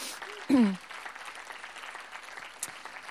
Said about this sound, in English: Give him a big hand.